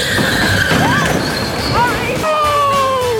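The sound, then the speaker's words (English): Go-kart racing engines whine loudly, their high-pitched drone sliding up and down as the karts rev, over a constant roar, with voices in the mix. “An action-packed afternoon of go-kart racing. What could possibly go wrong?”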